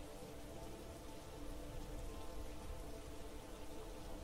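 Heavy rain falling: a dense, steady hiss of downpour that stays constant throughout, low in level, with no talk.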